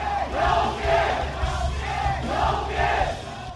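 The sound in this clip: A teenage crowd at a rock concert in Beijing shouts and cheers without a break, with chant-like cries swelling and falling in waves over a steady low rumble.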